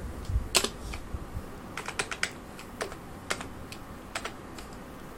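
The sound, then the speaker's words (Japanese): Many light key clicks as a PIN code is typed one-handed on a device, coming in irregular, quiet taps with short pauses between them. “ピンコードが片片手で打つと間違えますね”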